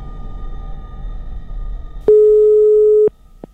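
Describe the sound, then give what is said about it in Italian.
An electronic signal tone, presented as sent by alien radio operators: one long, steady, mid-pitched beep of about a second, then a very short blip, over a low background murmur. “i marconisti extraterrestri lanciano il loro segnale verso Barletta.”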